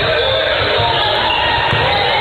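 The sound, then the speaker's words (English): Basketball dribbled on a court during a game, the ball's bounces thumping low beneath a dense, steady wash of crowd noise. “Fett will dribble around.”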